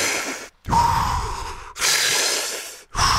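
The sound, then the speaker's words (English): Deep breaths drawn in and fully pushed out during a breathing exercise, each one a long, loud, airy whoosh. Several follow one another with brief silent gaps between them. “Fill yourself with breath, then fully expel the breath. So it sounds like this.”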